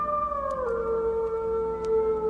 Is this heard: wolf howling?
yes